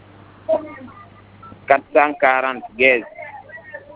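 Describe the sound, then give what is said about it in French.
Telephone keypad tones dial star and then 440, a few short beeps set apart by brief gaps, with a steady low hum beneath. “On compose. Étoile 440”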